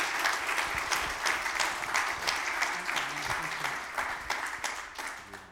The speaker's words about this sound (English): So why don't you put your hands together and welcome him as he comes up here.